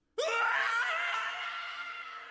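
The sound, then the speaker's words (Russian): A man's dying scream bursts in abruptly and holds as one loud, strained, sustained cry, easing only slightly over about two seconds. “Предсмертный крик Луки был похож на писк новорожденного котенка.”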